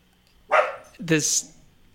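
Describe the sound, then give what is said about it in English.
A dog gives two short barks in quick succession, both brief and moderately loud, against a quiet background. “Is that a dog? Yeah, that's a dog.”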